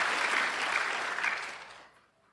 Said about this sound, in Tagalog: Palakpakan natin ang Diyos ng malakas.